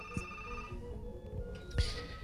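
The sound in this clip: A telephone rings on a call-in line, a faint steady ringtone of sustained tones broken by a couple of sharp knocks.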